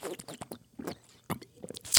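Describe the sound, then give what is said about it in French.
A person sips and swallows water: many short, wet mouth clicks and gulping noises in an irregular rhythm, fairly faint, with no talking, and a slightly louder, sharper burst near the end. “je vais boire un petit coup de flotte”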